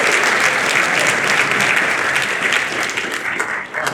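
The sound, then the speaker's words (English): Audience applause after a scripture reading in a service: a thick, even wash of clapping that holds steady and then eases slightly toward the end. “Round of applause for Karis.”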